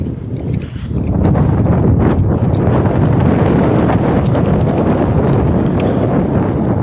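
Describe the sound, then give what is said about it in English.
Wind blowing straight into the microphone, a loud, steady buffeting roar that swells after the first second and stays strong throughout, with no voices. “The wind, she blows. I don't know if it's picking up on the microphone, but there is a... I just turned into the wind and it's blowing straight in my face.”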